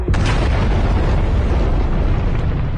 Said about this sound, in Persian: اولین چیزی که فهمیدن لرزش وحشتناک زمین بود. یه مین منفجر کردیم که باید زیر سنگر آلمانی ها می بود